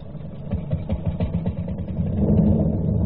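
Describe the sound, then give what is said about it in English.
A boat engine started by spinning its flywheel gives a fast, low, uneven chugging that swells louder and steadier toward the end, with no voices. “give the flywheel a spin.”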